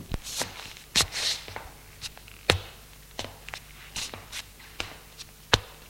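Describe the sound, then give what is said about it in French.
Footsteps of a woman walking across a room: many soft, irregular steps and light scuffs spread over the whole stretch, each a short thud with a brief high click, none very loud. “Elle se lève et marche dans la pièce.”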